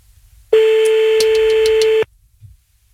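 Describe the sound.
A telephone ringback tone as a call rings out while calling someone back: a single loud, steady tone of about a second and a half, heard alone before quiet returns.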